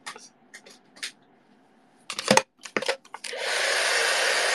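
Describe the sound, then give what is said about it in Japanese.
A hair dryer drying hair starts with several scattered clicks and handling taps, then switches on into a loud, steady, even whoosh of airflow that lasts to the end. “髪の毛こう乾かしていい？急に。”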